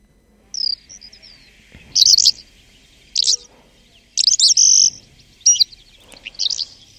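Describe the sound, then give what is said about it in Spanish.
Calandra lark song in cereal farmland with fallow fields: bright, high chirping phrases in several short bursts separated by quiet gaps, over a faint steady hum. “Ave cantor, la calandria común, Melacoripa calandra, propia de cultivos cerealistas con barbechos.”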